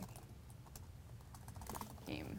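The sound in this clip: Faint typing on a computer keyboard, a quick run of light key clicks in an irregular rhythm, heard under talking.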